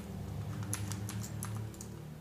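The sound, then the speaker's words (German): Computer keyboard keys are pressed while someone tries out key combinations. A few scattered, crisp clicks and taps come in irregular bursts over a steady low hum, with no voices. “genau, während der Aufnahme mal alle Tastenkombinationen ausprobieren.”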